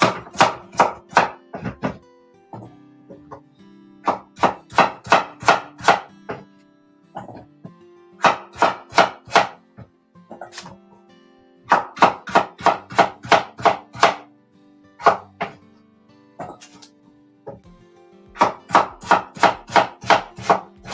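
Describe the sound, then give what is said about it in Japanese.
Rapid knife chopping of peeled sweet potato, with several quick bursts of sharp, evenly spaced strikes separated by short pauses. “さつまいもの皮を剥いて、えー、っと、切って”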